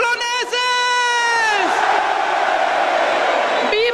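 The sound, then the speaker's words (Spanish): A crowd cheers at the chupinazo rocket that opens the San Fermín festival in Pamplona. A brief sustained tonal cry comes first, then a loud, steady roar of many voices fills the rest. “El chupinazo en Pamplona, que ya está de fiesta, arranca los Sanfermines.”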